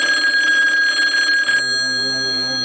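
A telephone rings with a steady, bright trilling tone for about a second and a half. It then shifts to a different sustained tone until the end, with no voices.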